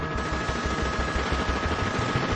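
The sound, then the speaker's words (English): Sustained automatic gunfire from a fully automatic modified AK-47 firing armor-piercing rounds in a shootout between armored bank robbers and police. Many rapid, evenly spaced shots blur into one continuous, steady barrage. “Officers find themselves against a fully automatic modified AK-47 with armored piercing bullets.”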